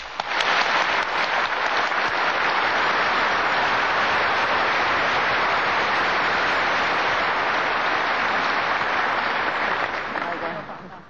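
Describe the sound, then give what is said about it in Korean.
Applause from an audience welcoming a guest speaker, a dense, steady wash of clapping that swells in at the start, holds loud and even for about ten seconds, then tapers at the end. “청해 무상사님께 환영의 박수로 맞이해 주시기 바랍니다.”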